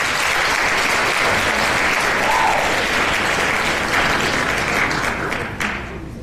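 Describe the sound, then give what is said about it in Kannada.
Studio audience applause for a quiz contestant's correct answer: dense, steady clapping that holds level before tapering off at the end. “ತಮಗೆ ಚಪ್ಪಾಳೆ.”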